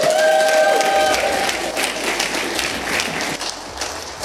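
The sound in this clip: A church audience gives loud, sustained applause to welcome a guest pastor, a thick wash of clapping that holds steady throughout.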